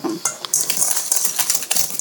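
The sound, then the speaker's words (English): Metal kitchen utensils clatter and clink as someone rummages through them looking for a whisk. Many quick, irregular clanks and scrapes follow one another, with no voices. “Where is the whisk? Which whisk is the whisk? Which whisk is which? I have it.”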